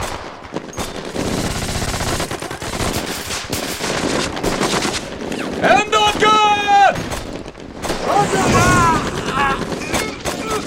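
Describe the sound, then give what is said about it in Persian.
Gunfire laid down as covering fire in combat: many rapid machine-gun bursts and shots crackle loudly and continuously throughout, with voices shouting over the firing. “آتش، پوشش آتش، به شلیک ادامه بدید”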